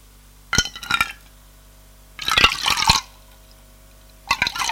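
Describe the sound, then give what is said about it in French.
Water is poured into a glass to half full, heard as three separate bursts of splashing liquid mixed with light glassy clinks, with quiet gaps between them. “Elle se sert un demi-verre.”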